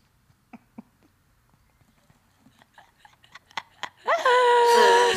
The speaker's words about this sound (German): Ich wollte mal kurz ins Mikro beißen. Sagen, schmeckt gut, ja?